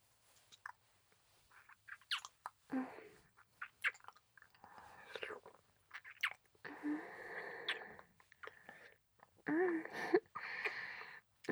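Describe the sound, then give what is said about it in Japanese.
Wet kissing with tongues: soft smacks and sloppy, slurping mouth noises come in irregular bursts, quiet and close, with no talking. “このままもうしばらくはキスを続けていきましょうか。慣れてきたようなら、あなた様も舌を絡ませてみてください。”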